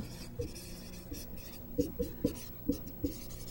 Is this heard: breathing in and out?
no